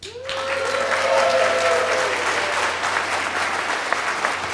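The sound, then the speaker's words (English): Live audience at a recorded science-show taping breaks into loud, sustained applause, with a whooping cheer rising over the clapping near the start. “In front of a real audience, as you can hear. Audience, make yourself known.”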